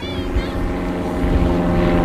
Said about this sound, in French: Qu'est-ce que c'est, ça, comme avion? C'est des gens qui ont leur avion à eux, qui sont propriétaires de leur avion.